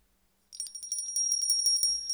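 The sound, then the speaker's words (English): A small, high-pitched bell is rung rapidly and repeatedly, a bright metallic ringing that continues for about a second and a half with no voices. “can I borrow your bell?”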